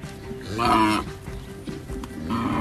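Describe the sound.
Cattle in Thailand lowing, with one long, loud moo early on and a second moo starting near the end, both over a steady low background hum.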